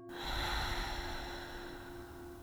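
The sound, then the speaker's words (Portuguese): A deep breath taken during a yoga relaxation exercise for stress and anxiety: one long, steady, airy rush of breath that swells early, then fades slowly over about two seconds, with no talking. “Inspira profundamente pelo nariz. Retém essa inspiração. Expira pela boca.”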